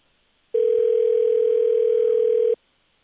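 A telephone ring tone sounds on an outgoing call: one steady, unbroken mid-pitched beep lasting about two seconds, alone, with silence before and after.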